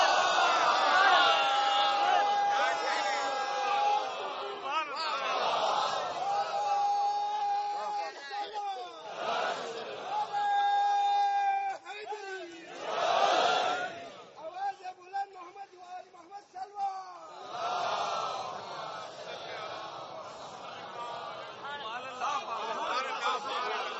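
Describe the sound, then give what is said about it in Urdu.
A crowd at a religious gathering chants slogans enthusiastically, the massed voices surging in loud bursts separated by brief lulls, with some scattered chuckles and chatter between the chants. “بس میں بھائی, نعروں میں بڑا جوش ہے, درود دھیمی ہے.”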